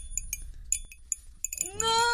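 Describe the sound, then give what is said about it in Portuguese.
Light glassy clinks of a wedding ring tapping against a drinking glass during a folk love ritual, a series of bright, quick ticks at irregular intervals, heard alone. “Vamos fazer agora a sua simpatia? Pronto. Tomara que essa aliança não bata no copo nenhuma vez.”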